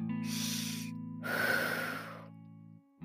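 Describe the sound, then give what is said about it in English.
Breathing of a person lying on a cold floor in hot July: two soft, airy breath rushes, the second louder and longer, over a steady low hum, then a short quiet pause. “A moment ago, I realized I can hear myself breathe.”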